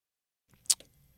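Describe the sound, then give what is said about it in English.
A single sharp, faint click of a computer mouse, short and crisp against near silence. “I got to click on this”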